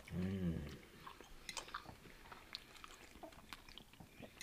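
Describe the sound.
Soft, wet chewing of a combo mouthful of greens and crab, with scattered small clicks and smacks spread over several seconds. A brief low hummed voice sound comes first, and the whole clip is quiet.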